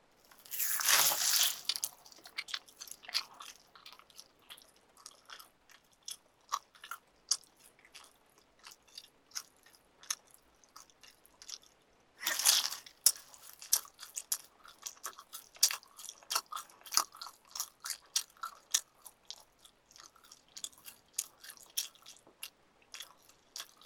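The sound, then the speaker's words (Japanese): Biting and chewing meat from the underside of a cut, with a sharp crunchy bite at the start and another around midway, each followed by many quiet, irregular crunching and squishing chews, with no talk. “裏側のお肉も全部食べるね。”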